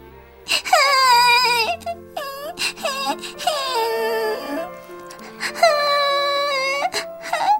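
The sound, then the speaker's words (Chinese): A young child crying after falling down: loud, drawn-out wailing with wavering pitch in several long sobs separated by short breaks. “扑通一声，小玲摔倒了。小玲哇的哭了起来。”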